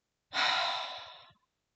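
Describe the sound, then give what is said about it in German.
A deep breath released through the mouth: one long, soft, airy exhale lasting about a second, heard alone with no talking. “Atme tief ein und atme beim Ausatmen durch den Mund aus.”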